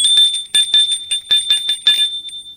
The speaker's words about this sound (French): Alors, il sonne chez Gilles.